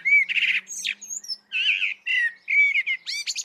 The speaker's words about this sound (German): Und dann gibt es einen sogenannten Zwitscherteil hinten dran. Das sind so ganz stark frequenzmodulierte, ganz breitbandige Laute, die auch sehr hochfrequent sein können und ganz schnell, also mit einer hohen Rate produziert werden, was wie so ein Gezwitscher ist.